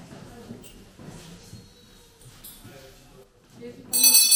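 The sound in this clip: A school bell rings to mark a lesson, a bright, loud metallic ringing that bursts in near the end after quieter shuffling and low voices.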